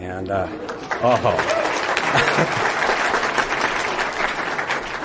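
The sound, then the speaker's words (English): Sustained applause from an audience, starting after a brief spoken voice and continuing loud and dense to the end. “she should get the applause for sure.”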